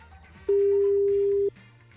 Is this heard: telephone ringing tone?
yes